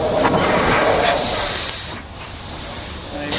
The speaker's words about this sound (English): The nerds are ready to try out their engine, but there isn't time to fire up the boiler and make steam, so they're using a quick substitute, compressed air.